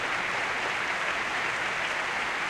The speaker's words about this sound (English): sharing in the applause this evening, a very long, wonderful, passionate evening of Verdi at his most glorious.